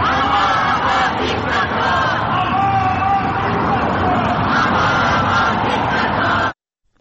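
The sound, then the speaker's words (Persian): A crowd of Iranian protesters chants slogans outside an Islamic Republic embassy in the evening. The chanting and shouting are loud, dense and continuous, then cut off abruptly near the end. “در دو شامگاه نیز ایرانیان در مقابل سفارت جمهوری اسلامی حاضر شدند و با در دست داشتن پرچم شیر و خورشید و زن زندگی آزادی به ضد مقامات جمهوری اسلامی شعار سر دادند.”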